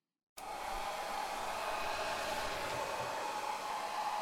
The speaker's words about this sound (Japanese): さっきの席に戻ろっか。乾かしていくね。